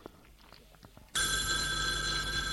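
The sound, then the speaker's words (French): A telephone bell rings suddenly after about a second of near quiet. The loud, steady, bright trill continues without a break to the end. “Le téléphone a sonné.”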